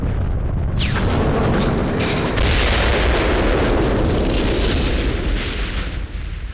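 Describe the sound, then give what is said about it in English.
A rocket ship crashing onto a planet as a dramatized sound effect: a sudden loud onset with a brief falling whine, then a sustained thundering roar that swells and then eases at the end. “The rocket ship hits the planet.”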